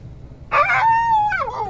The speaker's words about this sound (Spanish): No sé si mi perro es. No es su perro. No es mi perro ese.